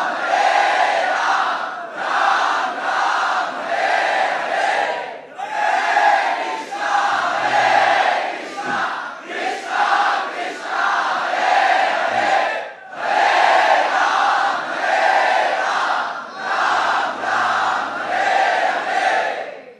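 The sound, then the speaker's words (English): A crowd chanting Hare Krishna loudly together, the many voices blending into a strong, rhythmic chant of repeated phrases separated by short pauses, loud and steady throughout. “During those few moments you were all chanting very loudly together”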